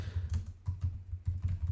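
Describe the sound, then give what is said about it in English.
Typing on a computer keyboard, a run of clicky keystrokes in uneven bursts with short gaps between them, moderately loud and heard alone. “Sorry, I'm trying to type and talk at the same time, and I'm not as good as I would like to be.”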